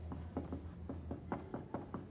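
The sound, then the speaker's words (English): Writing by hand: faint, scratchy pen strokes in a steady run of short, quiet scrapes, many in quick succession with no talk. “I am now writing in hieroglyphics.”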